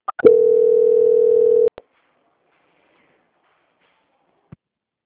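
A single steady telephone line tone lasts about a second and a half as a call is transferred. A few sharp clicks bracket it, then silence follows with one faint click later.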